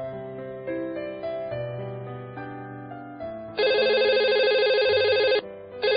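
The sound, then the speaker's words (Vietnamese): A landline telephone rings at home with a bright, warbling electronic trill that lasts nearly two seconds. After a short pause a second ring begins, both loud over softer sustained tones. “Điện thoại bàn kêu liên hồi”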